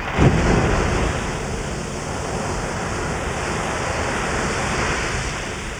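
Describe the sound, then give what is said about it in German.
Iceland's Strokkur geyser erupts in a geothermal field, hurling a hot water fountain into the air. A sudden loud burst opens into a broad, steady rushing roar, like heavy surf or wind, that continues to the end without speech. “Alle 5 Minuten schleudert sie eine heiße Wasserfontäne bis zu 20 Meter in die Luft.”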